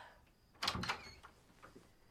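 A door to a room opens or shuts with a short burst of clatter made of two close peaks, followed by a few faint, quieter knocks against low background hiss.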